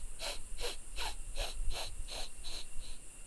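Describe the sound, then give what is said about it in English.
Rapid rhythmic inhalations in a breathing exercise: about eight quick, evenly spaced, airy breaths in, roughly two per second, each a short hissing stroke of air with no voices. “So the idea is to breathe in 10 strokes kind of fast. It's around 2 per second. So it's kind of like this.”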